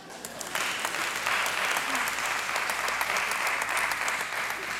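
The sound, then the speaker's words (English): An audience claps steadily for several seconds during a talk, a dense and even wash of applause with no voices over it. “I didn't expect you to clap there, but hey, you did.”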